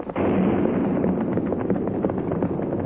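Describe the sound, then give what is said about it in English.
Blasting powder exploding at a mine in a valley late in the evening: a sudden deep blast swells into a sustained, heavy roaring rumble that continues steadily to the end. “That's strange, Tonto. Them used blasting powder. It's so late. Today's work should be over.”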